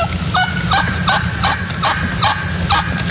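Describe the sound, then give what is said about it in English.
A wild turkey gobbles in a regular series of loud, rapid, throaty calls, each a quick warbling burst. The bursts repeat at fairly even intervals over a steady low background, and no voices are heard. “I got some wild turkey. Let's hear wild turkey.”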